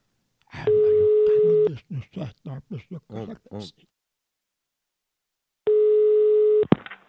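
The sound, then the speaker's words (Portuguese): Ringback tone of an outgoing telephone call: two long, steady buzzing rings of about a second each, separated by a long pause. A voice speaks briefly after the first ring, and a small click follows the second. “Vou ligar pra Leila”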